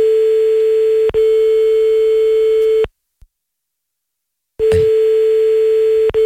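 A steady, single-pitched telephone tone sounds while a call is placed to a listener. A brief click interrupts it near the start, then it stops for almost two seconds of silence before the same tone resumes.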